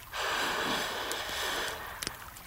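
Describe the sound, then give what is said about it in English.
A slow, deep breath makes a soft, airy rush that lasts about a second and a half, then trails off into a couple of faint clicks, with no talking. “big breath in. And blow a big breath out. Deep breath in.”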